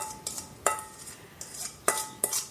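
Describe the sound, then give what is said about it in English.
A utensil clinks and scrapes against a dish as almond crisp topping is spread over peaches, a few sharp taps and softer scrapes in an irregular rhythm. “Okay, so just dump all of this on the top of the peaches and spread it around till it's all about the same depth.”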